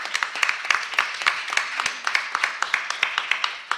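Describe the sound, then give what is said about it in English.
Audience applause at the BEYA conference for a general who stands up in the back of the room: many crisp individual claps in an irregular pattern, moderately loud and sustained throughout. “Please give this man a round of applause”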